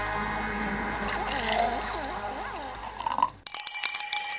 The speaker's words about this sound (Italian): Dopo questo breve jingle che ci piace tanto e che ci fa sentire il suono del Brindisi